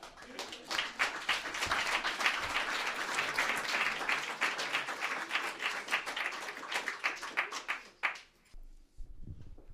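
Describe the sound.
Audience applause welcomes a performer on stage: dense, continuous clapping lasts about eight seconds, then dies away abruptly into quiet.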